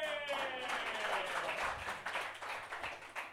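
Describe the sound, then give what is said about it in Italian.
Audience applause at a comedy show: a dense wash of clapping that follows a brief tonal sound, then thins into uneven, scattered claps toward the end. “Adesso fate un grande applauso come se Sasha Grey fosse ritornata nel porno.”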